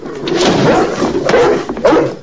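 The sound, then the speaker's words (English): Dog barking at home, a few sharp, loud barks rising out of a steady, busy background clatter across the short stretch. “At home, they carry Star and Laddie in, but Nanook is there barking.”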